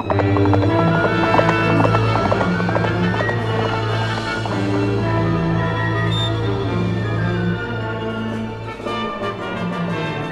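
Horse hooves clip-clopping as an Apache rides his horse toward a river ford: a steady, rhythmic trot that continues throughout beneath dense sustained tones.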